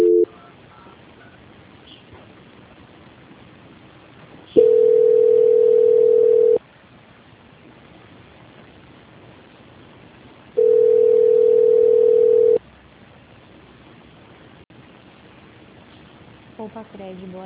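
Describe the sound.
Telephone ringback tone while a call is transferred: two steady, evenly pitched beeps of about two seconds each, separated by a longer quiet gap, over low line hiss.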